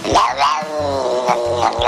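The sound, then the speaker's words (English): A cat meowing strangely while being scratched near the base of its tail: a loud, drawn-out, wavering cry with shifting pitch, heard alone without talk. “When cats affected by it are scratched or tickled at the base of their spine near a tail, it results in seemingly involuntary licking, strange meowing.”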